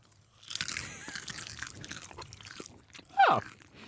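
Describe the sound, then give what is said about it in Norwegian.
Popcorn being eaten, faint crunching and chewing with soft rustle, then one louder crisp crunch near the end. “Det smaker popcorn som har, den føles som den har vært ut av posen litt.”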